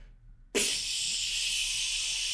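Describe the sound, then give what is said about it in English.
A voice imitates a fizzy drink can being cracked open. After a quiet lead-in, a sudden loud, bright hiss bursts out and holds steady and airy for nearly two seconds. “So just for audio listeners, he definitely cracked that bubbly and it's still going.”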